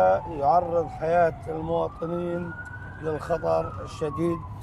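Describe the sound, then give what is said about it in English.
An ambulance siren wails as the vehicle speeds along at night. The siren rises into a long sustained tone beneath a talking voice. “In a speeding ambulance at night.”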